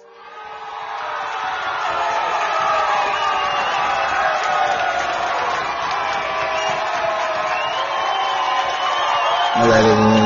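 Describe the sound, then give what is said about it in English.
Crowd cheering and whooping swells quickly from a quiet start into a loud, sustained roar of many voices that stays steady for about ten seconds. “let's give a round of applause to Pillow Talk”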